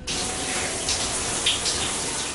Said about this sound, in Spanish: La ducha, la agüita.